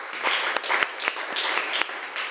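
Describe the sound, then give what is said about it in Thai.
Classroom applause from students for a classmate, a short round of uneven hand claps with a few sharper individual claps standing out, moderate in level. “ปรบมือให้เพื่อนคนที่สองหน่อยค่ะ”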